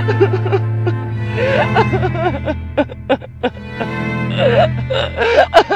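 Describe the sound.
A woman bursts into tears, with a run of choked whimpers, shaky sobbing breaths and broken gasps that come in uneven bursts, growing stronger toward the end.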